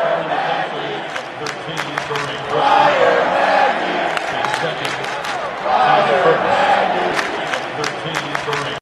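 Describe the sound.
Crowd cheering at an NBA basketball game, a loud roar with whoops and clapping that surges twice.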